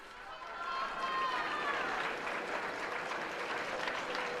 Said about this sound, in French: Saint-Père qui est applaudi également à la sortie de la chambre du Parlement